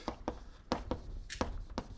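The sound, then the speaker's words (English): Writing on a board: several short, separate scratchy strokes and taps in an uneven rhythm, fairly quiet. “maybe I'll write it up there”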